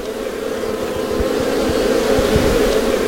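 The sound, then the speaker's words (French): Honeybees at beehives in spring make a dense, steady, loud buzzing drone that grows slightly louder as it continues. “Ça y est, on s'approche des ruches. Écoutez-moi ça.”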